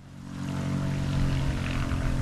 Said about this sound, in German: Eine blau-weiße Cessna landet auf der kleinen Asphaltpiste und fährt zum Hangar.